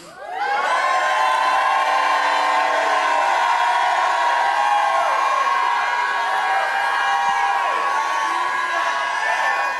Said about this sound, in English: Well, if you believe that in the first session, lift your right hand up and give the Lord a shout.